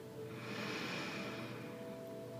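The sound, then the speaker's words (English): A single deep breath drawn in, a faint, steady airy hiss that swells gently and holds for about two seconds. “Last one, deep breath in.”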